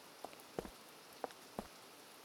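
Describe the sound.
Rain falling on an umbrella makes a faint, steady patter. A few sharper drop taps stand out at irregular intervals.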